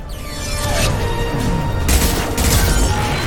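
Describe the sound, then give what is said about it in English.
Booming weapon blasts from a video game as the player shoots a small blob enemy. Several loud, bursty explosions land over a steady rumbling game backdrop, with some sweeping electronic tones between them. “So I'm gonna shoot the little blob.”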